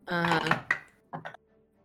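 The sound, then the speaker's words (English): Dice rolled during a tabletop role-playing game clatter in a few sharp, hard clacks after a brief vocal sound at the start, then stop. “I'm going to roll my dice here.”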